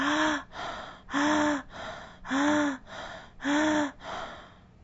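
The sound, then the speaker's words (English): Rapid panting breaths pushed in and out of the chest during a breathing exercise, a quick even rhythm of four strong, slightly voiced breaths alternating with softer ones, loud and alone. “quicken your breaths in and out of your chest as if you were panting. Your breath will sound like this.”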